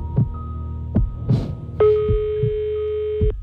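Ringback tone of an unanswered telephone call: one steady, harmonically rich tone lasting about a second and a half, set against a low, rhythmic throbbing thump.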